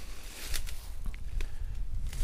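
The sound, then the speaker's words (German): Footsteps push through blackberry brambles in a forest at night. Irregular rustling and crunching of stems and leaves come with each step and continue throughout. “Oh, ich gehe jetzt hier gerade durch Brombeersträuche.”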